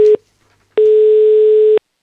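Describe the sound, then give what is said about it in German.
Telephone ringback tone heard while calling: a steady mid-pitched beep cut off at the start, then after a short silence one longer loud tone of about a second, alone with no voices. “Müssen wir gleich mal anrufen beim Simon.”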